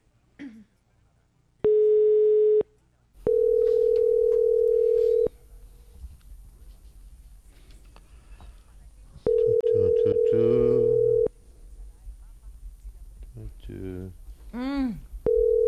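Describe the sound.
Telephone ringback tone from an unanswered call attempt: several long, steady beeps separated by pauses, with a person talking over the third one and briefly afterward.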